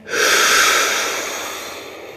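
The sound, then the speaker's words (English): A deep inhalation during a guided meditation: one long, breathy draw of air that swells quickly and then fades away over about two seconds. “And you breathe in.”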